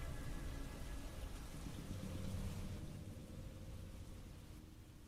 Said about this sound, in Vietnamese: Trời dần dần ngớt mưa, sấm chớp không còn nữa.